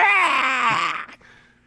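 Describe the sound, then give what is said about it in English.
A voice imitates a newborn baby wailing: one loud, high, wavering cry of about a second that slides downward in pitch, then trails off into a faint breath. “couple seconds pass by, and then he starts just like wailing, like,”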